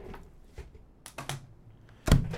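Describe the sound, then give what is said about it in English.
Plastic clicks and clatter of CDs being shuffled in a radio studio: a few sparse, light taps, then a louder knock near the end. “Some bookkeeping. CD shuffling.”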